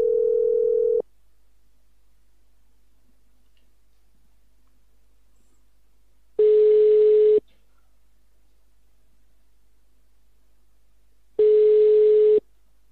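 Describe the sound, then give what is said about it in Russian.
Ringback tone of an outgoing telephone call to a cable supplier: three steady, low-pitched one-second tone bursts, evenly spaced about five seconds apart, with quiet gaps between them and no talk. “сейчас надо набрать номер. Давайте попробуем позвонить.”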